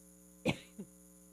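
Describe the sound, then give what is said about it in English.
A short, sharp cough followed by a smaller, softer second cough. Both are heard alone over a faint, steady low hum. “Hang on a second while I cough for a second.”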